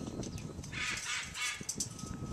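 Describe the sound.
Harsh raspy squawks from a bird, two bright grating bursts in quick succession over a noisy background.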